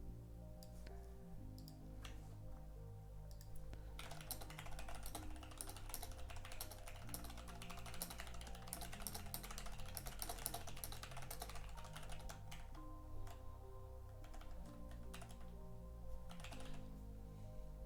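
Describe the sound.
Typing on a computer keyboard produces many rapid key clicks in an uneven, continuous run for about eighteen seconds, quiet and steady with no talk.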